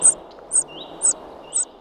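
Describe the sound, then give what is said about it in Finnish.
A common cuckoo chick begging in a common redstart's nest gives four sharp, very high-pitched chirps at an even, insistent pace, about two per second, with a thin whistling tone between them. “Reissun jälkeen pääsen kuulemaan Juha Haikolan äänitteen siitä, miten vaativalta se oikein kuulostaakaan, kun käenpoikainen kerjää leppälinnun pesässä.”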